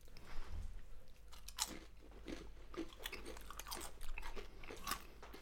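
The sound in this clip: Chewing of chanterelle mushroom: faint, soft, moist crunches and mouth sounds repeat steadily in many quick bites, with no talk.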